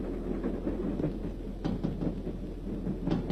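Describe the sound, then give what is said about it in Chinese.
A military train rushes past at night with a deep, continuous rumble. Intermittent clacking knocks rise above the low roar at uneven intervals. “一列军用火车在夜色中奔驰而过”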